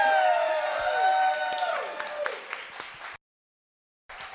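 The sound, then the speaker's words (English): A live audience in Seattle breaks into sustained clapping and cheering with a few whoops to welcome a guest. The applause cuts off abruptly into silence, then briefly resumes at the end. “So please put your hands together and welcome Washington State Senator Marko Liias.”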